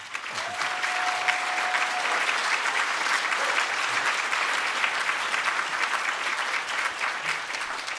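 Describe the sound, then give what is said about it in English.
Audience applause welcoming debaters at the City Club of Cleveland: a sustained, even roar of many hands clapping that stays at a constant loudness from start to finish, with no speech over it. “we ask our audience please refrain from applause or otherwise interacting with or attempting to influence this debate, except at this moment where we welcome our debaters to the City Club of Cleveland.”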